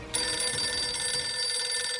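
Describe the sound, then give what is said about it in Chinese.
A telephone rings with an incoming call, a bright, steady, buzzing ring that starts after a short low murmur and holds unbroken to the end, with no voices. “结果不一会儿，黄乔松就接到了赵世龄打来的电话”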